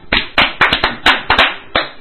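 Sharp hand claps ring out loud and alone in a slow, slightly uneven rhythm, each clap a crisp, separate smack.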